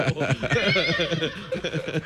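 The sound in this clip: A horse whinnies in a loud, quavering, high-pitched neigh that wavers continuously for about two seconds.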